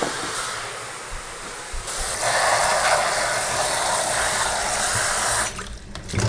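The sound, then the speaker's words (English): Running tap water pours steadily over collard greens as they are trimmed and washed, a broad even hiss that shifts slightly near the end, with no talking. “But I'm gonna go ahead and trim and wash everything just so they're ready.”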